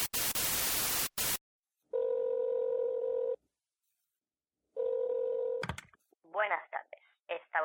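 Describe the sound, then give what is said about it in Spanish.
A telephone call to Apple: a burst of static opens, then two long steady dial tones separated by silence, a quick clatter of dialing, and a voice beginning at the end. “llamando a Apple.”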